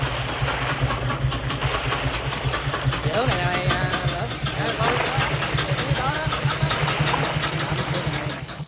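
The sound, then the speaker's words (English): A boat engine runs on a river, a steady low hum throughout, with voices talking over it partway through. “They set off on Kin's boat.”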